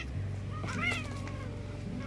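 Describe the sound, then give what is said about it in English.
An orange house cat gives one drawn-out meow that rises and falls in pitch, moderately loud over a low steady hum, with quieter rustling around it. “okay, sorry, I had a little disturbed. My cat's going crazy. He's such a little orange fluff ball.”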